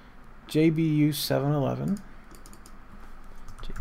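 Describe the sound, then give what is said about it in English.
Typing on a computer keyboard, with light, quick key clicks running on faintly after a short voice-like sound at the start. “No, let's just type it in.”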